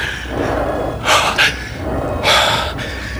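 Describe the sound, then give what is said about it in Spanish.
Heavy panting from a person pinned down in a struggle: a few loud, rasping gasps in quick succession, with no speech. “Necesito aire, tomar aliento, pero está jadeando y casi oigo su corazón.”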